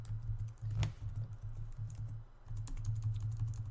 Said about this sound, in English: I'll type Twitch in.